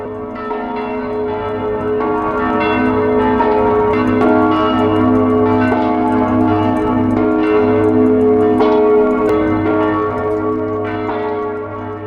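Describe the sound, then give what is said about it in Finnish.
Church bells ring in the Czech Republic, several overlapping bells pealing loudly and steadily for the whole stretch. Bright metallic strikes sit over a sustained, humming wash of resonance, with no voices. “Kirkonkellot soivat Tšekin tasavallassa merkkinä siitä, että maan ensimmäisestä koronakuolemasta on kulunut täsmälleen vuosi.”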